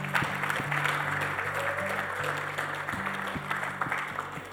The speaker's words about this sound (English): And we would all like to say congratulations and welcome to the family of God. Let's give these people a hand.